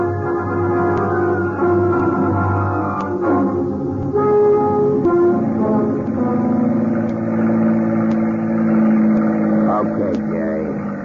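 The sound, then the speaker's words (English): A boat motor runs continuously on a trip out toward a ship anchored offshore, giving a loud, mid-pitched droning hum whose tones shift and waver over the whole stretch. “Cut the motor. Well, I said cut the motor.”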